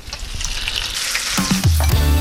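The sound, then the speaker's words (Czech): Quark-and-potato filled dumplings fry in lard in a pan with a steady, crackling sizzle that grows slightly louder toward the end. “Ukrajuješ další kousek sádla, máš další pánev. My si ještě na sádle ty taštičky opečeme.”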